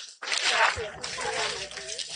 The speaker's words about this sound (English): So the first thing you're going to do, actually, you go back and you're going to wash your hands.